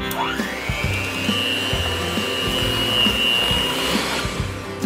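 Electric mixer whirring through frosting made with heavy cream, salt and vanilla: a continuous motor drone with a steady high whine that climbs in pitch as it starts, running unbroken at an even, fairly loud level with no talking.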